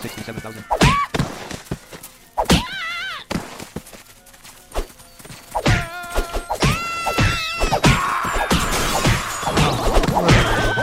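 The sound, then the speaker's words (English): Heavy smashing impacts from a Megaton Punch attack in a video game: many sharp, loud hits and crashes in an uneven rhythm, mixed with other game effects and excited voices throughout. “Megaton punch.”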